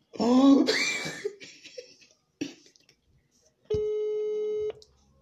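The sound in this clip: A phone call ringing out gives one steady buzzing ring tone that lasts about a second. A cough and a few short vocal sounds come before it.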